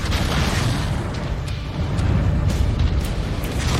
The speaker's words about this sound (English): Shooting my long-range missiles.